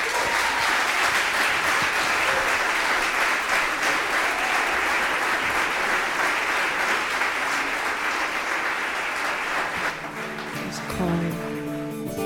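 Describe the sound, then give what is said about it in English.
Audience applause welcomes a trio at a blues night in North Carolina: dense, steady clapping holds for about ten seconds, then thins as tonal instrumental notes begin near the end. “Please join me in a round, warm welcome for our evening's performers.”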